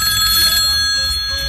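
A telephone rings for an incoming call: a steady, fairly loud high ringing tone holds throughout over a low background hum, with no voices.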